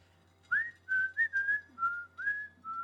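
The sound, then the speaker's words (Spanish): A person whistles a cheerful tune while entering a shop: a quick run of bright, clear notes with small pitch slides, fairly faint over a low steady hum. “siempre entraba en la tienda silbando y con una sonrisa”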